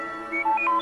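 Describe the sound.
R2-D2 droid beeping from a late-1970s or early-1980s Star Wars Christmas record: four short electronic whistled tones jumping between high and lower pitches over a sustained musical background.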